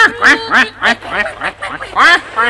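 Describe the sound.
Duck quacking in a farmyard setting: a rapid run of nasal, rasping quacks repeats in an uneven rhythm, loud and clear over a faint low hum.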